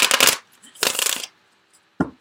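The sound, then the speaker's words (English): Tarot cards being drawn from a deck: two papery, rustling bursts of card handling with a gap between them, then a single short, sharp snap near the end. No voices. “And then I'm going to get three cards from the Sensual Wicca Tarot.”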